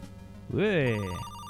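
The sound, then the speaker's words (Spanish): A telephone ringtone from a modern MSX 1 video game: one synthesized ring lasting under a second, its bright harmonic tone rising and then gently falling in pitch before it cuts off. “Me está llamando Harris, ¿no? Ah, no, le llaman a él.”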